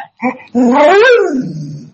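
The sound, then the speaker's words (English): A dog vocalizes: a couple of short yips, then a long, drawn-out whining howl that rises and then falls in pitch, loud and alone. “That's the dog.”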